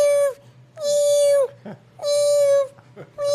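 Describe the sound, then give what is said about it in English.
A human voice imitates a rescue cat crying under a plane seat. It gives a series of long, whining meows at a steady pitch, about four in a row, with the last one cut short. “this lady had a cat, a rescue cat. You can't do that anymore. Under the seat. And it was just going,”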